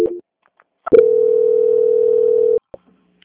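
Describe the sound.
A steady, mid-pitched line tone plays while a bank customer's phone call is transferred. A short tone blip and a few clicks come before it, then one tone holds evenly for under two seconds and stops abruptly.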